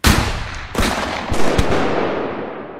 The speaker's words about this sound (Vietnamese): Sau khẩu lệnh của anh Hải, tiếng súng CKC vang lên, từng loạt đạn được bắn ra và găm thẳng vào người bọn chúng